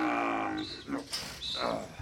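Cows moo as they are herded into the barn, a few drawn-out, low, throaty lowing calls rising and falling in turn, fairly faint.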